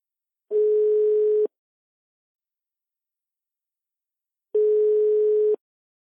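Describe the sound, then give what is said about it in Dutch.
Ringback tone of an outgoing telephone call: two steady, mid-pitched beeps, each lasting about a second, separated by a long silence, clean and alone with no voices. “Kiki heeft Loes Donkers gebeld om haar een update te geven over het onderzoek.”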